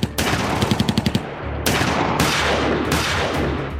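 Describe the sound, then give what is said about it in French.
Gunfire erupts in a shootout between police and robbers on a Belgian motorway: a rapid string of sharp, loud shots, followed by sustained heavy blasts and noise with no voices. “C'est un déchaînement de coups de feu.”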